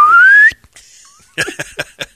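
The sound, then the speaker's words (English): A slide whistle sound effect gives a loud, half-second sweep that rises steadily in pitch and then cuts off. A few short, scattered bursts of sound follow after a pause. “Get the slide whistle.”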